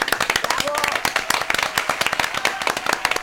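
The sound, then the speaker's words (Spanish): Applause on a radio show celebrating Cuarteto Day: dense, steady clapping from a group with sharp overlapping hand claps throughout, while a voice speaks over it. “en el Día del Cuarteto te brindamos entre todos nosotros, para vos y para tus compañeros, el gran aplauso.”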